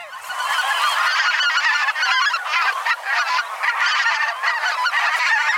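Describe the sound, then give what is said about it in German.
Dense, continuous honking chorus from a flock of a bird that breeds in the north Russian and east Siberian tundra; many overlapping nasal, goose-like calls at a steady, loud level, with no voices. “es ist ein Vogel, der in der Tundra Nordrusslands und Ostsibiriens brütet, also nicht in Deutschland.”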